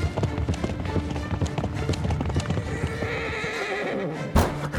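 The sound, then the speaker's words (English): Galloping horses carrying riders on horseback toward a convent, with fast, continuous clip-clopping hoofbeats and neighing, loud and busy throughout. “They rode on horseback to the convent of San Paolo, determined to bring Catherine back.”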